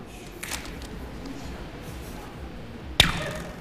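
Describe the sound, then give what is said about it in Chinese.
A rubber band snaps to imitate an arrow being shot, giving one crisp, sharp crack near the end over faint background hiss. A softer swish comes earlier. “就是皮筋模拟出来的声音”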